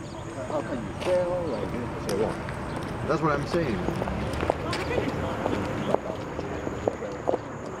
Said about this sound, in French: Je marche sur le trottoir.